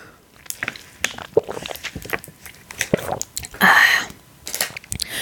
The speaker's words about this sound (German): Der Strohhalm ist so abgeknickt. Hab meinen Neffe noch übrig gelassen sozusagen. Trinke ich jetzt davon einen Schluck. Habe ich auch gerade Lust drauf.